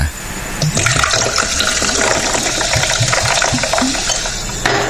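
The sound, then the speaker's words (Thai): Soda water is poured into a drink in a loud, continuous rush of splashing and fizzing bubbles that lasts about four seconds before stopping. “มาเติมโซดาสักหน่อยนะฮะเติม S99 สักหน่อยเติมโซดา”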